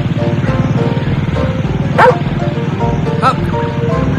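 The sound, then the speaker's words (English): A dog gives two sharp, high barks, spaced apart, over a loud, steady, rapidly pulsing drone that runs throughout. “Take that dog away. Take that dog out of the way. He'll get run down by the mower.”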